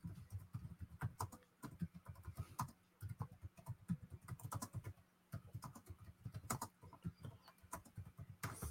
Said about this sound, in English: you type it in there, what you want